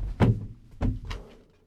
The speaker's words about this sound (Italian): è caduto. Ha mancato la sedia.